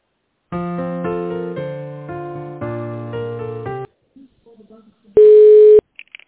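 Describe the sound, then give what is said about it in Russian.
Telephone transfer tones on a call: a stepped electronic melody of sustained notes, then a few faint murmurs, then a single loud, steady beep. “это не Елена, я сейчас на нее переведу”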